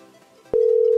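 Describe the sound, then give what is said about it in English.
A phone call going to voicemail: after a faint low murmur, a single steady electronic beep starts abruptly and holds at an even pitch to the end. “Oh god. a voicemail. Didn't we have a different voicemail from before?”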